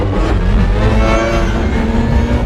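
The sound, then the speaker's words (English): Spaceship rear thrusters engage as the vessel slowly turns away from the sun, producing a loud, continuous roaring engine rumble with heavy low-end power and a steady, slightly pulsing drone throughout. “Rear thrusters engaging. The Discovery slowly turns away from the sun.”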